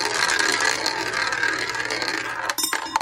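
Prize wheel spun by hand, its pointer ratcheting rapidly against the pegs in a dense, continuous run of clicks that stays fairly steady before a few sharper clacks near the end.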